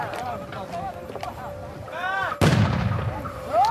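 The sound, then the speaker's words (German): A grenade explosion: one sudden, loud blast cuts through ongoing talk and leaves a rumbling tail, with voices continuing before and after. “It's some grenades”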